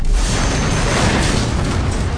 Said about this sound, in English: The choked blast rifle exploded like a bomb.